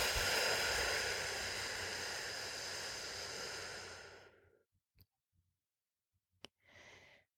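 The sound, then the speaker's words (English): A deep breath in and out makes a long, soft airy rush that holds steady and then fades away over about four seconds. A few faint clicks and one short breathy puff follow in near silence. “Take a breath in, exhale it out.”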